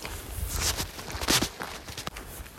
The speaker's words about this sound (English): I'm also noticing as I walk along this gravel road to get to the trail